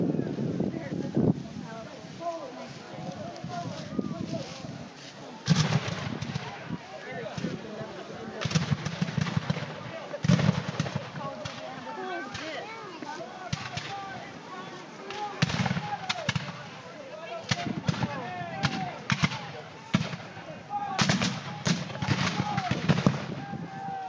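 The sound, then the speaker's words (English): Union and Confederate reenactors fire period weapons in a Civil War battle reenactment near the Borden House at Prairie Grove battlefield. Many loud, cracking shots come in ragged, overlapping volleys that barely let up throughout. “When the actors in Union and Confederate uniforms met in a gun battle near the Borden House at the park Saturday, this is what it sounded like as they shot their period weapons.”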